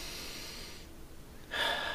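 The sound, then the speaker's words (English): A deep breath, drawn audibly as soft, airy hissing that swells louder and brighter near the end, with no talking. “Step two is take a deep breath.”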